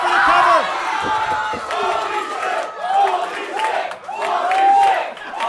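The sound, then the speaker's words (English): A wrestling arena crowd roars after a spear tackle, loud, dense and unbroken, with shouted cheers and yells rising and falling throughout. “Both men are down. Both men are down from that devastating spear.”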